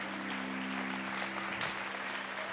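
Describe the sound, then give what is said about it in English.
Congregation clapping hands for a man during an anointing and blessing, a faint, steady patter of many hands over a low, constant hum. “Come on, give him a hand clap.”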